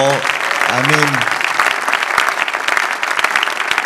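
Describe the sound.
Audience applause in an auditorium at a pastors and leaders conference: steady, loud clapping that carries on throughout, with a voice briefly heard at the start.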